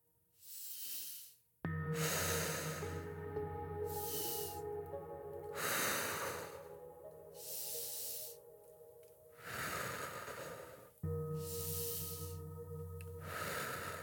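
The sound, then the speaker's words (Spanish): Slow breathing, inhales and exhales flowing one into the next without pause: many soft, airy breaths rise and fade over a low sustained tonal background. “Sin pausa entre la inhalación y la exhalación. Inhala, exhala.”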